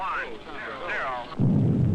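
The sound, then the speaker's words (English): A rocket blast-off heard over a very poor transmission: a voice talks briefly, then a sudden loud low roar breaks in and holds steady. “I believe that was the blast off.”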